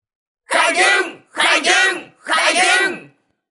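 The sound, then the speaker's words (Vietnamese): Disciples of a sect roar toward the sky in three long, loud, strained shouts separated by short pauses, each rising and falling in pitch. “theo tiếng nói vang vọng của Tinh lão, lập tức tất cả đệ tử đạo thần tông từ bốn phía ngửa mặt lên trời gào thét”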